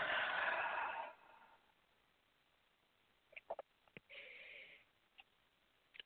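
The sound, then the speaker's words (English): Slow breathing during a guided prayer exercise: a long, soft rush of airy breath, then a quiet pause broken by a few small clicks, then a shorter second breath. It is faint and has no talking. “Let's breathe and release.”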